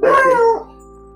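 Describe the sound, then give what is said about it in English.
A dog gives a single short, loud bark with a yelping, falling pitch, then it fades into a faint steady hum. “Excuse me, that was my dog.”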